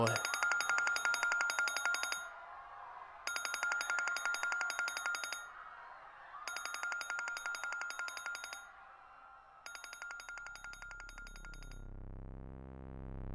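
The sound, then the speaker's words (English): A cell phone rings with an incoming call, a drunk dial. Four loud, evenly spaced bursts of a bright electronic ringtone repeat in a steady on-off rhythm, then the ringing stops. “I wouldn't let that call go unanswered for too long if I were you”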